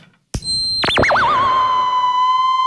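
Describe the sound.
A theremin is played by moving hands near its antennas. After a click, a high whistling tone swoops downward in wide, wavering oscillations, then settles into a steady, sustained pitch with bright overtones.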